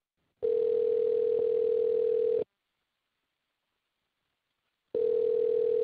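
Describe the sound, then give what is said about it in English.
A telephone ringing tone sounds as an outgoing call waits to connect: two long, steady, mid-pitched tones of about two seconds each, separated by a silent gap. “Let's call Whitney right now, okay? Great. Sounds good. Hang on.”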